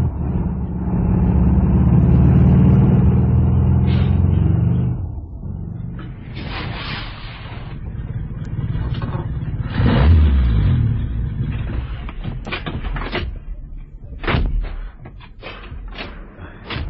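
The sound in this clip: A car engine roars loudly for about five seconds as the vehicle is waved down by police for dangerous driving, then drops to a lower running sound with a few short knocks and clicks.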